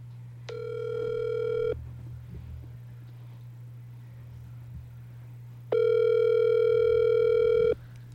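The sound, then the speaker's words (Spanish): Ringback tone of an outgoing telephone call: two long, steady buzzing rings separated by a silent pause, heard over a constant low hum with no talk. “Voy a marcarle a mi papá para que ustedes oigan una llamada.”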